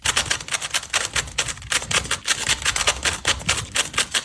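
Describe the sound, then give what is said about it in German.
A fully scrambled Rubik's cube is turned at high speed in a solve of about four seconds, making a dense run of many sharp plastic clicks and clacks in a quick, uneven rhythm. “Zauberwürfel in nur 4,27 Sekunden gelöst. Damit wir uns das jetzt alle mal vorstellen können. Also der ist komplett verdreht.”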